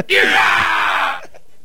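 Shrill human screaming, one loud, high-pitched cry held for about a second before cutting off, with faint noise afterward.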